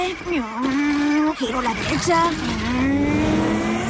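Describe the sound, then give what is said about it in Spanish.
A BMW turning right with its tires squealing, producing sustained whining tones that waver and slide in pitch, loud and steady throughout. “Va un BMW. Giro a la derecha.”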